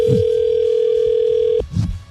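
A telephone rings on the line as a call is placed: a single steady, buzzing ring tone holds for about one and a half seconds, then cuts off, with soft low thumps around it.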